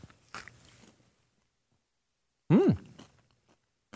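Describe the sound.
Chewing of Reese's peanut butter chocolate puffs: a few short, crunchy bites separated by quiet gaps, with a brief voiced hum partway through.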